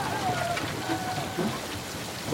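Steady rain falls throughout in a film scene, a dense, even hiss of drops with no single drop standing out and no pauses.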